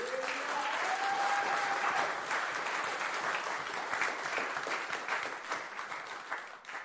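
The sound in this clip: An audience applauding at a French-language church service after a scripture reading, with dense, continuous clapping that holds steady for several seconds before thinning slightly at the end.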